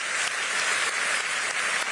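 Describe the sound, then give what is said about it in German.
Applause from many hands, a dense and even patter that stays at a steady level for about two seconds with no voices over it. “Ich bewundere sie. Ich habe Respekt. Ich applaudiere ihnen. Gern. Und immer wieder.”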